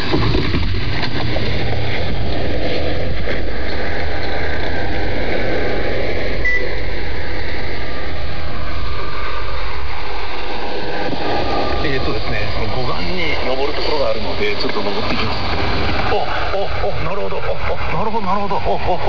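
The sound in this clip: Steady engine idle of a car stopped briefly in a no-parking spot, a continuous loud drone and rumble with a murmuring voice faintly over it in places.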